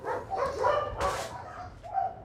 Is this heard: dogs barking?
yes